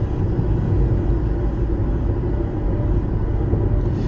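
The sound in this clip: Low, steady engine and road rumble of a car driving, continuous and even throughout with no break or talk.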